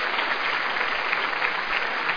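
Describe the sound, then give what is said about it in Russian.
An audience applauds at a stage performance. Brisk, dense clapping stays even and unbroken for the full couple of seconds, with a slightly dulled, muffled top. “А смотрите, вот бы им посмотреть, как народ аплодирует этому. Ведь аплодисменты – знак согласия.”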